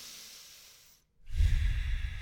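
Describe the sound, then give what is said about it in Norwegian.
A person demonstrates the calm breathing used while running: a soft inhale, a short silent pause, then a louder, breathy exhale, with no talk. “Jeg jo like sliten som dem Og så puster jeg”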